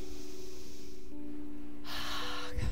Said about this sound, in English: I invite you to take a deep breath in and